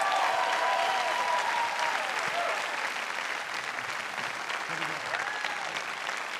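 Sustained applause from a church audience welcoming a guest pastor, a dense, steady clapping that fills the whole six seconds at an even loudness with no talk over it.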